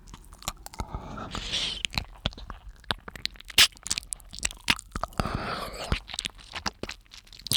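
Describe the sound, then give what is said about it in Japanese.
Wet mouth and licking sounds of ASMR ear licking, close and intimate: many irregular soft smacks, clicks and squishy slurps at low volume, with no talk. “ほら、チュパチュパ、耳を舐める音も聞こえるでしょ。”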